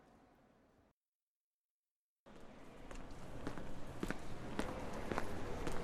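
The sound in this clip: Footsteps walking through an airport toward a departure gate: steady, evenly spaced steps over a constant hiss, starting after a brief stretch of silence.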